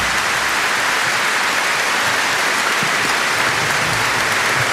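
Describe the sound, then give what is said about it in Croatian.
An audience gives the Croatian Radiotelevision Tamburica Orchestra sustained, dense applause at an evening show, a steady roar of clapping from start to finish with no voices. “Ja vas molim još jedan veliki pljesak za Tamburaški orkestar Hrvatske radio televizije.”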